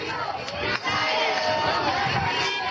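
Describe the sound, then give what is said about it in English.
Supporters cheering and shouting outside the US Supreme Court as a legal team walks out: a dense, steady crowd roar with many voices mixed together. “In April, supporters cheered as Cecilia Wang walked out of the Supreme Court with her legal team.”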